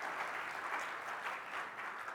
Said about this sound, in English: So can we give a round of applause to the pastors here and the leaders here?